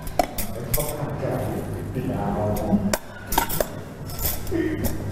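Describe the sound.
Bowls and dishes are stacked, a small bowl placed into a larger one, giving several light ceramic clinks and knocks among rattling tableware while people talk.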